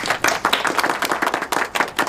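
Applause at a workplace meeting as two women from a military law office are introduced and welcomed: many dense, overlapping hand claps in a steady, lively patter with no break.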